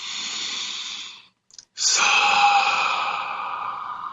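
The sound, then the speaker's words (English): A big breath during a guided relaxation exercise: a soft airy breath lasting about a second, a brief pause with a faint click, then a longer, louder, steady rush of air that gradually tapers, with no words spoken. “Let's take a big breath in.”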